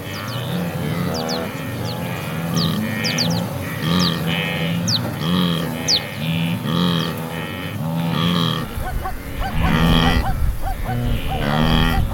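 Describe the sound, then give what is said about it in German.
Wildebeest grunting and zebras barking in a large herd of young and adult animals on endless grassland, with many calls overlapping throughout, low grunts mixed with sharper, higher barks in a busy chorus. “Das etwas panische Bellen zwischendurch, das sind die Zebras. Und das tiefere, entspanntere Grunzen, das sind die Gnus.”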